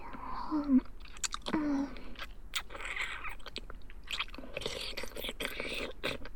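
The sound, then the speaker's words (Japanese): Crunchy chewing and biting of food close up, with wet mouth clicks and crisp bites scattered throughout, while a soft whispering voice murmurs intermittently. “あれ、この硬いのなんだろう。ハムって噛んじゃおうかなー。”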